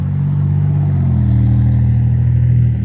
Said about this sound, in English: sorry, all these cars driving by all loud